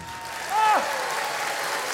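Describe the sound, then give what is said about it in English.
Children in an audience clap their hands in a steady patter of applause, and a brief high vocal whoop rises over the clapping partway through. “The children in the audience clap their hands.”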